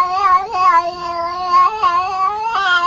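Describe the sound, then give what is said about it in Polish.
Drawn-out meows from a female cat that was found under a fence. A few long, wavering calls follow one another closely, clear and fairly loud, with no talk over them. “To jest kot znaleziony pod płotem. Kocu czy kotka? To jest koteczka.”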